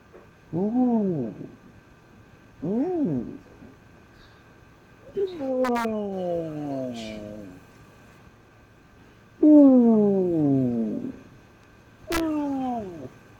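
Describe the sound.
A cat meows five times, with pauses between calls. The cries are mid-pitched and tonal, some short and arching, others longer and drawn out.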